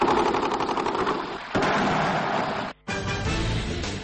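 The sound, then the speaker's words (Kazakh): Sustained gunfire from various weapons in a city, a dense, continuous rattle of rapid shots that cuts out abruptly for a moment near the end before the firing resumes. “Түркменстанның астанасы Ашхабадта ұзақ уақыт бойы түрлі қарудың атысы естіліп тұрды.”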